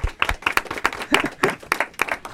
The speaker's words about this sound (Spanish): ¡Un aplauso!